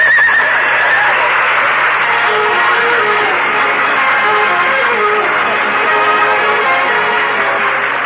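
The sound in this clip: A horse pulling a sleigh gives a whinny near the start. The rest is a dense, steady wash of loud sound.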